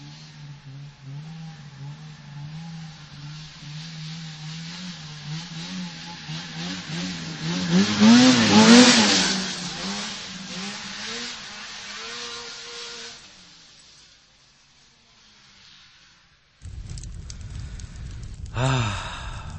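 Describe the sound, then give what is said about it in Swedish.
An old Ski-Doo Elan snowmobile engine with its throttle cable valve knocking against the piston rod: a low engine drone revs up to a loud peak midway, then dies away into near silence before a short burst of noise returns at the end. “Och för er som inte riktigt känner igen Skido Ilan-ljudet så är det så att på vårat exemplar låg gasvajerventilen och slog lite grann emot kolvstaget.”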